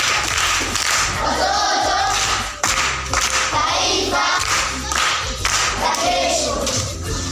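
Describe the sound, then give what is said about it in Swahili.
Clapping from a group at a primary school quiz, a dense, fairly loud burst of hand claps with some thuds mixed in, dipping briefly partway through before carrying on just as full. “Makofi kwa mjomba.”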